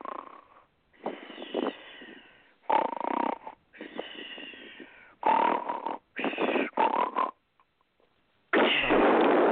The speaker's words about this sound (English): Do you want me to snore for you?